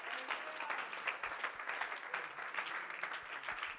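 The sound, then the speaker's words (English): A church audience claps their hands during a service, a dense and continuous patter of many hands at a soft, even level with small swells throughout. “If you believe that, would you clap your hands to God?”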